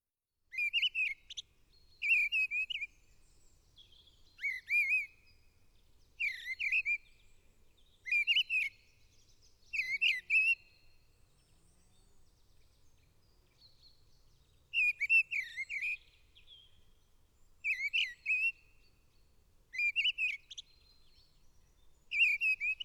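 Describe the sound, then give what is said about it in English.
Missel thrush song in spring: loud, clear fluted whistled phrases, each short and bright, repeated many times with brief pauses between them, with no other sounds. “This is the Song of the Missel Thrush.”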